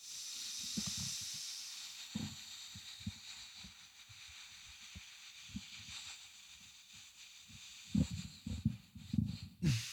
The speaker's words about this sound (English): Now take a big inhale through your nose.